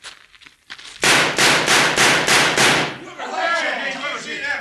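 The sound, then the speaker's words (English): Gunshots fired at a target: six loud, sharp bangs in rapid, evenly spaced succession, followed by overlapping voices and noise. “Look like there's only one new bullet hole in this target.”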